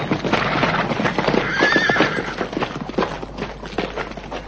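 Horses neigh and their hooves clip-clop as riders dismount. Dense, continuous hoof clatter and shuffling run throughout, with a high whinny rising out of the mix near the middle.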